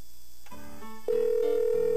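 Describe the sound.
Ringback tone of an outgoing telephone call: a single steady, mid-pitched electronic tone starts about halfway through and holds to the end, after a brief muffled line noise.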